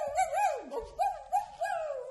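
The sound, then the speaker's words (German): A person's voice imitates a dog howling in a few wavering, sung phrases, the pitch wobbling up and down and sliding downward once before the howls resume, loud and alone. “Und ich könnte jaulen”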